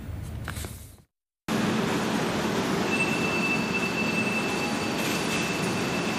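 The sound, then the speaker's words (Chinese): A high-speed train pulls into a railway station with a heavy, steady rolling rumble and a thin, high wheel squeal. A short burst of sound drops to a brief silence before the rumble returns and carries on. “晚上18:41，高7256次列车抵达南京南站”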